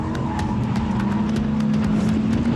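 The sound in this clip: Engine of a four-wheel-drive Audi with stability control switched off, sliding through a long bend; a loud, steady drone with a sustained low tone runs throughout, without talk.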